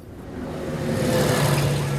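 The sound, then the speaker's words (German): Traffic from buses and cars packed closely on a wide city square in Berlin-Wilmersdorf, heard as a continuous low engine drone that grows a little louder after the first second, with no distinct horns or other separate events. “Dicht an dicht Busse und Pkw. Hunderte von Menschen eilen über den weitläufigen Platz.”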